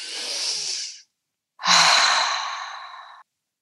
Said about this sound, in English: take in a few deep breaths.